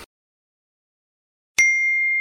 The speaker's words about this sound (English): And what's that? Oh, there's a text from Mike.